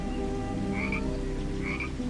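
Frog croaking near water and a rock, a faint steady pulsing chorus with two brighter chirping calls standing out above it, no voices present.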